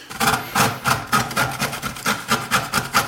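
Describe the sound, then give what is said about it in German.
Rasping strokes as orange peel is rubbed across the coarse side of a grater, about a dozen quick scrapes in a steady back-and-forth rhythm, moderately loud and without talk. “So, dann welche Körnung nehmen wir denn hier? Die große? Ja, die große. Okay, dann mache ich das jetzt mal. Würde ich nur anreiben, ja? Ja, anreiben, ja.”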